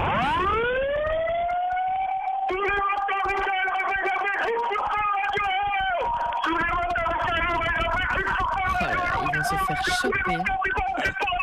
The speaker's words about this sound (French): Allez, 3, 2, 1, on fait un petit coup de sirène quand même.